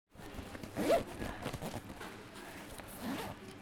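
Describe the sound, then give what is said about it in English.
A backpack full of school supplies being zipped up: a fairly quiet zipper pull with a brief, sharper rasp near the start, then softer rustling and zipping. “That was the sound of a backpack being zipped up full of school supplies.”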